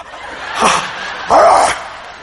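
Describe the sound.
A human voice imitates an old dog growling, two short, gruff vocal bursts separated by a brief pause, the second one louder and more sustained.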